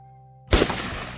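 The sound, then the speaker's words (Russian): A single loud gunshot, a sharp, deafening crack that bursts out after a soft tonal drone and then trails off in a decaying tail. “От оглушительного треска ухо пронзило болью и сразу же заложило. Эхо выстрела пришло позже.”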